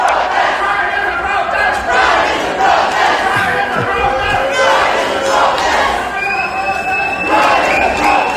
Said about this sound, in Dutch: in Oostende zijn jullie na de voorstelling ook op straat gegaan, een soort mini-pride. Dat was een primeur voor Oostende, dat klonk ongeveer zo.